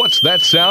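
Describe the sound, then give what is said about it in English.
A steady, piercing high tone from a Dock Lifeguard alarm warning of hazardous electricity around a boat dock sounds continuously under a voice asking a question. “That's the sound of the dock lifeguard warning you it's not safe to be in the water around your boat dock. Dock lifeguard will always warn you if there's hazardous electricity on or around your dock.”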